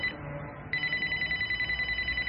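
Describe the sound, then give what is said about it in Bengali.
A home telephone rings with a steady electronic tone that starts abruptly and then pulses in a quick, even rhythm over a low background hum. “ফোনগুলো তো silent করে রাখতে বলেছিলাম। Sorry sir, বাড়ির phone তাই ধরে নাও।”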